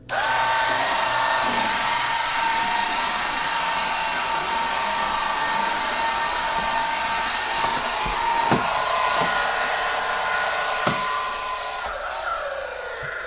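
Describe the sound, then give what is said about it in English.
A small swivel vacuum cleaner runs on carpet with a steady, whining motor hum and a few faint knocks. The sound stays constant, then eases slightly near the end. “It's a swivel vac, I think is what it's called. And you just push it out in front of you, and it's got this little tiny vacuum. Turn it on.”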